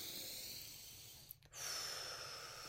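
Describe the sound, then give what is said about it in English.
A deep breath: a soft, airy breathing hiss that pauses briefly, then swells into a fuller drawn breath toward the end. “just relax and take a deep breath.”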